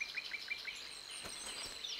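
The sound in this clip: Calls of a Eurasian penduline tit at a nest in a willow above lakeside reeds: a quick series of thin, high chirps, then a sustained, very high, thin note.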